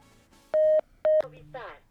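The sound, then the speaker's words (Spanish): A telephone number being dialed sounds as two short, loud electronic keypad tones at a steady pitch, a brief gap between them, followed by a faint, short voice. “pues vamos a marcarle entonces”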